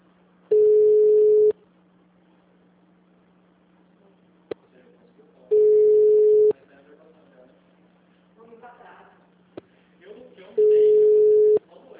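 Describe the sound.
A telephone ringback tone sounds while a call connects: three steady, mid-pitched tones, each lasting about a second and spaced evenly apart. Faint clicks and soft murmuring fill the quiet gaps between them.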